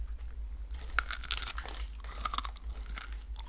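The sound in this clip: Crunchy bites and chewing of a squid-smelling, high-protein crisp, 88% protein, like a shriveled breadstick: many sharp, brittle crunches crackle in quick irregular bursts over a faint low hum, with no talking.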